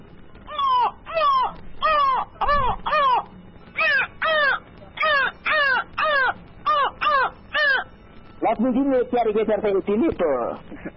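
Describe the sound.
A human voice imitates a crow, giving many harsh, nasal caws in a steady rhythm before quickening into a rapid, tumbling burst of caws at the end.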